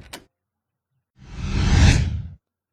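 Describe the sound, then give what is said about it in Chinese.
A car door opening: a brief click, then a broad whooshing swing that swells and fades over about a second. “他侧过身子，打开车门。”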